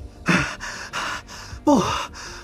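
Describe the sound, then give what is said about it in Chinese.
A voice performs the heavy panting of an exhausted man who has just run and leans with one hand on a thick cedar trunk: several harsh, rapid gasping breaths, some with a strained rising pitch. “他一只手撑在粗壮的雪松树干上，不断地粗喘气。”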